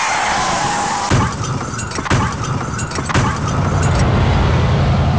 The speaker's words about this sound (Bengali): আর ঠিক তখনই ট্রাকটা মারলো ধাক্কা আমার বাঁ দিকে।